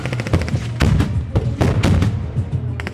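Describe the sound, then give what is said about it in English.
Live-ammunition gunfire from fighters staging simulated attacks on mock positions at a camp near a border. Loud, sharp shots and rapid bursts crack in irregular clusters over heavy, booming thuds. “Hezbollah fighters unloaded their weapons around us in simulated attacks on fake Israeli positions. This is live ammunition being used.”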